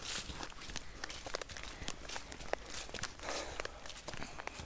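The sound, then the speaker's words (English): A dog scuffling through dry leaves in a forest, giving a continuous run of soft crunching rustles with scattered sharper crackles. The sound stays faint and steady, with no talk. “she's a bit more perky now we're back in the forest. She likes the scuffling leaves.”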